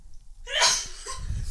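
A single sharp sneeze in a radio studio, a sudden loud burst of hissing breath noise rising out of near silence, followed by a quieter, rumbling background with no talk.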